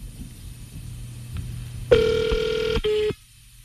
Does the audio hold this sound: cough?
no